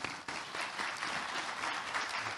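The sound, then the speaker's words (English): Audience applause from a crowd at a talk: dense, steady clapping that stays loud and continuous throughout, with only a brief dip near the start. “we can clap, we can clap.”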